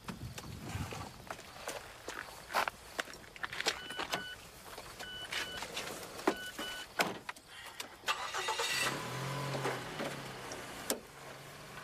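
A car engine starts after a string of sharp clicks and thuds, and a low, steady idle rumble fills the last few seconds.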